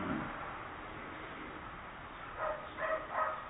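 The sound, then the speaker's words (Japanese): A dog barking faintly: a few short barks near the end over a steady hiss. “今犬の声が聞こえますけど”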